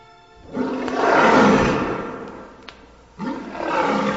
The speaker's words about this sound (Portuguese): Tem um leão aí para o pessoal tremer em casa?